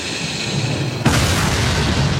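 An explosion from a war film, as soldiers blow up their own bunkers at a medieval crusader fortress: a sudden heavy blast cuts in about halfway through over a low rumble and carries on as a sustained, loud roar.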